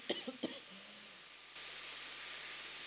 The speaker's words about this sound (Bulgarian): Извинявайте, че се закашлях.